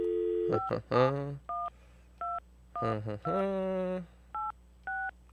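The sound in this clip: Telephone keypad tones dial a number: several short, evenly pitched dual-tone beeps spaced apart, interleaved with longer, louder sustained tonal sounds.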